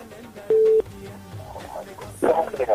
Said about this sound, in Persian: بله تماستان وصل شده، صحبت نمیکنین. خب مجبور یک تماس دیگر وصل بسازیم.